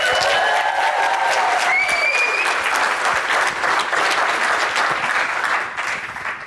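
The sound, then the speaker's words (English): A live audience applauding at the National APCO Conference in Baltimore, Maryland: dense, loud clapping with a few whoops near the start, sustained evenly before tapering off at the end. “We are recording live from the National APCO Conference here in Baltimore, Maryland, and I have with me today a live audience. Let's hear it.”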